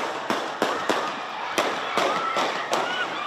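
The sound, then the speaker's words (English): Gunshots ring out during an NBA championship celebration: seven sharp cracks in an irregular series, each loud and abrupt over a noisy background. “gunshots. Chaos, people running for their lives.”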